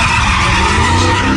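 Car tires skid and screech in one loud, continuous squeal that holds steady throughout.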